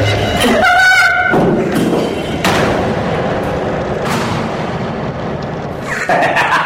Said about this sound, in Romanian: E un pistol de jucărie de paintball cu bile colorate